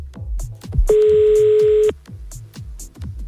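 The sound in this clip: A telephone sounds as a call is being placed: one steady, clear tone lasts about a second over a rhythmic backing beat.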